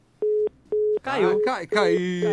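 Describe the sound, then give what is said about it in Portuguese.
Call-drop tone on a phone-in line: two short, steady, mid-pitched beeps of equal length, followed by a voice talking. “Caiu a ligação. Caiu.”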